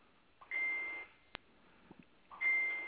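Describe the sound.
Two electronic notification beeps from a phone tagged in a group chat, each a steady high tone about half a second long, spaced about two seconds apart, with a sharp click between them, faint and without talk.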